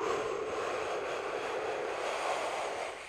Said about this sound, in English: First, we're going to start off by taking a deep breath.